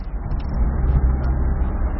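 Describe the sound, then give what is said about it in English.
A bus engine rumbles low and steady as the bus sets off on a journey of more than 16 hours to Harare, a continuous deep drone that holds the same level throughout. “The bus leaves on its 16-hour-plus journey to Harare. The passengers are sweating, some already sleeping.”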